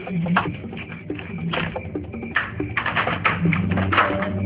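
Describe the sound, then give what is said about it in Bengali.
A key works in a door lock to unlock it, giving a rapid series of sharp metallic clicks and rattles that grow busier toward the end. “বুঝতে পেরেছি, চাবি দিয়ে দরজা খুলতে হবে।”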